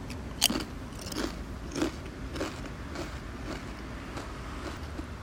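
Crisp crunches of someone biting and chewing thick-cut potato chips, with a few sharp bites early on, then softer, fainter chewing over a steady low hiss.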